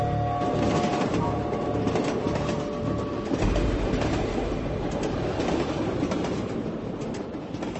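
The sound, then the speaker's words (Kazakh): A train carriage clatters on the rails at night as the train crosses Siberian forests and hills heading west. A steady loud rumble carries a continuous rattling clatter, with one dull knock partway through. “Тык-тык. Тык-тык. Вагон бер туктаусыз тыкылды.”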